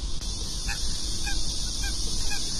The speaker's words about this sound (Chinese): 还有鸭子。